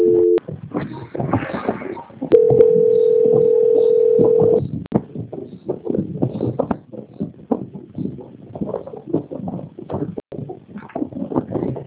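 Telephone ringback tone during a call transfer: one long, steady, mid-pitched tone of about two seconds, preceded by a brief tone and followed by irregular, noisy line sounds.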